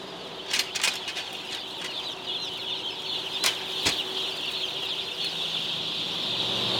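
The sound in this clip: Newly hatched chicks, from eggs that hatched that morning, give a steady high-pitched chorus of peeping. A few sharp flutters or bumps break through, and the overall level swells slightly toward the end.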